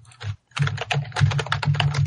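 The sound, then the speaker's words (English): Rapid typing and clicking on a computer keyboard while someone looks something up, with dense, quick keystrokes broken by a brief pause near the start and a low steady hum underneath. “someone click on that real quick and tell me if that's right. One second and I will.”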